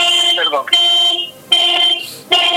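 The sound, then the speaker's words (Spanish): A car alarm goes off with loud electronic tones in repeating bursts, including a warbling sweep, pausing briefly between cycles and starting again. “Un auto, la alarma de un auto se ha disparado.”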